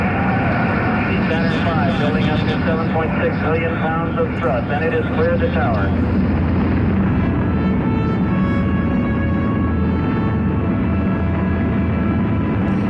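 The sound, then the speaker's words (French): A Saturn V rocket's engines roar at liftoff, a dense, loud, unbroken rumbling blast that holds steady for the whole stretch without pause. “Saturne V s'arrache du sol, offrant un spectacle inouï de force et de grandeur. 6800 tonnes de poussée brûlant 2000 litres de propergol en 2 minutes”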